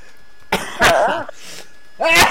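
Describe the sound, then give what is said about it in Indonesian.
A few harsh, throaty coughs: loud bursts with a partly voiced rasp, separated by a short quiet gap before a final cough. “Jadi batuk tuh aduh. Batuk kan.”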